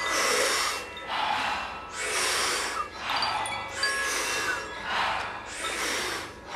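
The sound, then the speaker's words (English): Rhythmic breathwork: deep, forceful inhales, each followed by a short, soft exhale, repeated many times in a steady cycle of airy, hissing breaths. “as you exhale, just soft exhale, just about a third of that inhale, it sounds like this”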